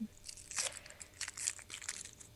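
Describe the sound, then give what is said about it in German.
Tearing and crinkling of a neatly wrapped package being ripped open, its contents feeling like a DVD. Several sharp, papery bursts come in an uneven rhythm, with quieter rustling between them. “So, wir reißen. Oh, das ist ja echt so ordentlich eingepackt hier.”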